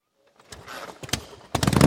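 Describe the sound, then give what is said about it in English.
A motorcycle engine with loud pipes revs after a moment of silence, its rumble building in choppy bursts before swelling into a louder roar at the end, promoting a bike night. “Can your bike bring the thunder? Can your bike bring the thunder?”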